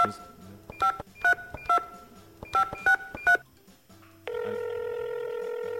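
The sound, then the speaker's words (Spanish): Touch-tone telephone keypad dialing: several short electronic beeps of differing pitch in an uneven sequence, followed by a steady, continuous electronic line tone that holds to the end. “voy a tener que hacer una llamada. Voy a hacer una llamada, un momento”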